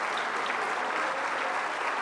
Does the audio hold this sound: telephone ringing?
no